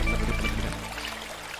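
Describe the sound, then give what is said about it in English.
Water pouring into a pot in a video game: a short, quiet trickling stream lasting under two seconds, strongest at the start and thinning toward the end, with no voices. “Now I'm filling water.”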